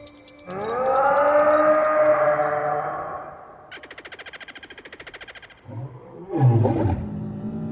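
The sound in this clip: An imagined dinosaur roar: a long, loud, tonal bellow, followed by a buzzing, rapidly pulsed rattle and then a deeper, rough growling roar.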